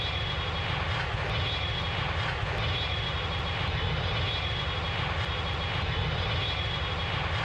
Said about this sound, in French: Décollage. Attachez vos ceintures, direction l'archipel des Comores.